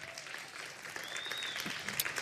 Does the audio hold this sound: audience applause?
yes